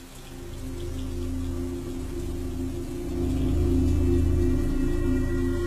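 Steady rain pours during a nighttime storm over a village courtyard, a dense, continuous patter with a low rumble underneath. It swells slightly louder in the second half, with no voices.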